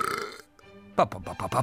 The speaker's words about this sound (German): Mozart nimmt einen tiefen Schluck aus seinem Bierkrug. Mozart rülpst.